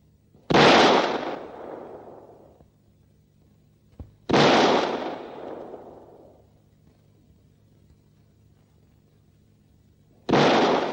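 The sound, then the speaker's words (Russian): Pistol shots fired in a film scene: three loud, sharp bangs spaced several seconds apart, each followed by a long, fading rumbling tail. “Гаврила опускает пистолет и несколько раз стреляет в Варю.”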